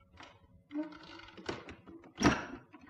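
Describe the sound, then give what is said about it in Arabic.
A street door being opened at night in a radio drama, heard as a few dull knocking thumps, the loudest one near the end, with no talk. “فتحت باب الشارع، ده القمر طالع.”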